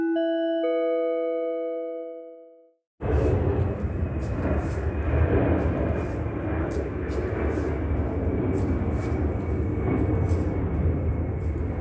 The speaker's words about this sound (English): That's the Ontario International Airport, pacing above a senior citizen apartment complex.